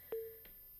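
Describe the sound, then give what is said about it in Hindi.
A short electronic telephone beep as a caller's line drops, one clear tone followed by a fainter blip, then quiet line hiss. “लगता है हमारे collar की call cut चुकी है।”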